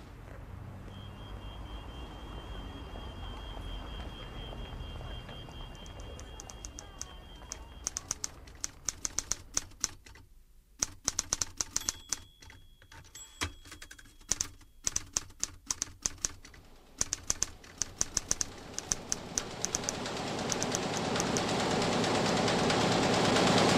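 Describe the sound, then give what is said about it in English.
A newspaper printing press runs at about 38,000 copies per hour, a rapid mechanical clatter of clicks and knocks over a steady hum. The clatter pauses briefly near the middle and grows louder toward the end. “At the moment, the press is running at 38,000 copies per hour, which works out roughly at about 10 full newspapers”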